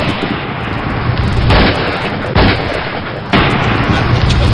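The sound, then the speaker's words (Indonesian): Gunshots from a dramatized shooting with a special golden bullet on a bridge: a few loud, sharp booming blasts stand out above a dense, rumbling background. “Beberapa hari kemudian, ia ditembak dengan peluru emas yang khusus disediakan melawan kesaktiannya.”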